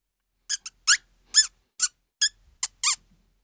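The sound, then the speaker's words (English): A mouse squeaks in a series of thin, high-pitched chirps, several short bursts spaced irregularly with silence between them, fairly loud and alone. “I think it's a mouse. Yes, look. I can see a mouse. It's brown.”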